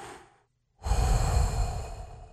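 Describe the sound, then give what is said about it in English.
Deliberate breathing to calm down: a softer breathy sound fades into a short silence, then a long, loud, airy breath rushes out and slowly tapers over more than a second. “Just going to breathe. Just going to breathe.”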